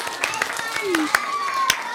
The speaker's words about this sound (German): Oh, bravo. Applaus, Applaus.